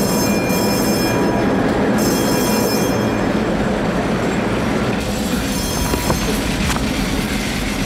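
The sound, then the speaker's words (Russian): Trams run through a track junction and split apart, making a loud, steady rumble of wheels on rails with high wheel squeal above it. “На развилке трамваи разъезжаются в разные стороны.”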